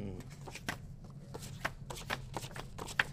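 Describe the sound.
Playing cards being shuffled and handled for a sentence-building exercise: a steady run of papery riffles and soft slaps, with many quick rustling strokes throughout.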